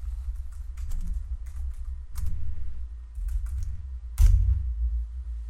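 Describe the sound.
Typing on a computer keyboard, several short bursts of quick key clicks separated by pauses over a steady low hum, with no talk.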